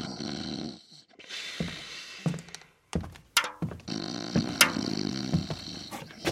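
Snoring from a man lying on the floor: rough, rasping breaths in uneven bursts with brief gaps, fairly loud with no talk over them.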